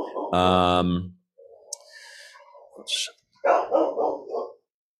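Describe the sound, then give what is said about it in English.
A dog gives one loud, drawn-out bark, then voices talk while a few faint clicks sound. “Apologize for the dog.”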